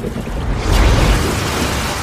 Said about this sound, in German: Eine Wasserfontäne schoss aus dem Loch. Wow, was ist das? Das ist ein Kaltwassergeysir.